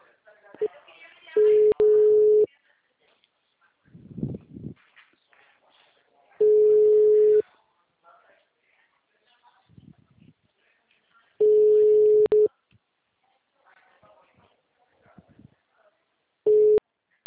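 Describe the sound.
An unanswered telephone call's ringback tone sounds as four evenly spaced steady tone bursts about five seconds apart, the last one cut short. Faint murmuring voices fill some of the gaps between rings.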